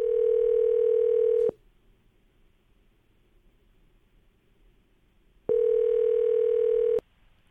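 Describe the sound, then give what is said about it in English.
Ringback tone of an outgoing telephone call: two steady, loud buzzing tones, each lasting over a second, separated by a long silence with only faint line hiss. “Last couple digits, and be real quiet. All right, Dennis, we're going to see if we can get her to pick up here.”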